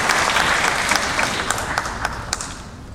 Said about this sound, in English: Ladies and gentlemen, let's give a warm KSB welcome to Judge Holton.